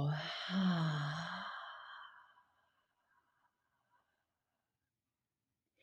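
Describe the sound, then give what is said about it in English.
A deep breath let out as a long, audible sigh during a guided breathing exercise, voiced at first and then tapering away over about two seconds into near silence. “expanding the diaphragm, expanding the rib cage, taking in as much air as you can, and then letting it all go.”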